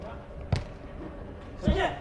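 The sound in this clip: Two sharp, thudding ball impacts about a second apart during a volleyball match, beginning with a serve, over a steady background murmur.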